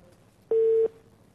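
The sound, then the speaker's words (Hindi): A single steady beep of a telephone busy tone after a dropped call, short and clear over faint line hiss. “अच्छा call मेरे ख्याल से drop हो गई।”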